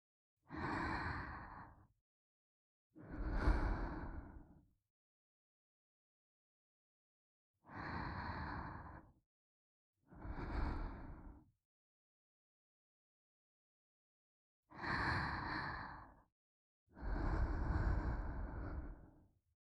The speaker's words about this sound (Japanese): 子守歌代わりにママの呼吸音を聞いてくだちゃい。